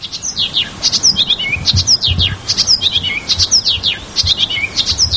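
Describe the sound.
Bright bird song from a rarely seen bird species in northeastern Afghanistan: many quick, high chirps and twittering notes repeat steadily throughout, with no voices.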